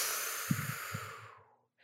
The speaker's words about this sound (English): So take a big deep breath. And then as you exhale,